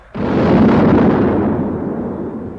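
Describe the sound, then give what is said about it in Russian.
A tank gun firing, loaded with armour-piercing and high-explosive fragmentation shells: one loud, abrupt boom that rolls on into a long, deep rumble and fades slowly. “Бронебойный! Огонь! Команду, лейтенант, команду! Еще два осколочных туда! Давай! Колею у плакона! 004! Огонь!”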